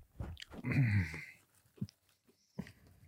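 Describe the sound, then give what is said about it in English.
A dog chewing weenie chews: a longer burst of wet crunching and chomping, then a few short separate bites with soft breathing between them. “Also, you don't love these weenie chews that much. You're fucking mowing them down. Downing those fucking things.”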